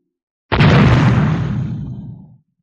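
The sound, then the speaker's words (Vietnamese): An artillery shell over 100mm in caliber explodes on the front line: a single sudden, loud blast whose deep rumbling roar decays over about two seconds before falling silent. “Một viên đạn pháo đường kính trên 100mm điên cuồng bắn vào trận địa tuyến đầu.”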